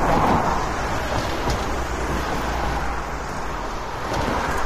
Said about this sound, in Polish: Droga POW jest naprawdę w kiepskim stanie i słychać to w momencie, gdy przejeżdżają samochody.